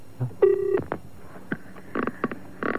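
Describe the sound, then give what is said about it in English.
A telephone is dialed to place a call: a quick run of several touch-tone beeps, one held longer than the rest, sounds alone at moderate loudness. “Well, as a matter of fact, Dr. Turf, I've got the California Club on the line.”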